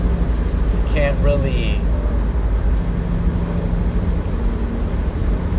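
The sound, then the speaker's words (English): A car is driven through pouring rain, giving a constant loud low rumble and broad wash of road noise, with a brief murmur of voice near the start. “I'm sorry, I'm driving right now, so it's like, it's pouring over here right now, and people around here drive like crap.”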